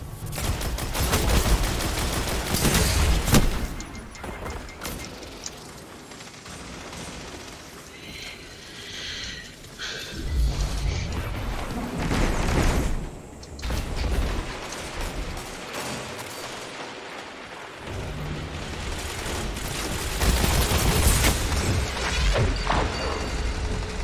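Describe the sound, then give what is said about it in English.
Rapid gunfire and explosive blasts from rockets in a video game battle over capture zones. Loud, dense crackling bursts run almost without pause, with heavier booming hits near the start and middle. “Watch that rocket.”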